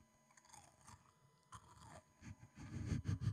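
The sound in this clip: Crunchy snacks are chewed a handful at a time. The crunching starts faint and grows louder, ending in several loud, crisp bites.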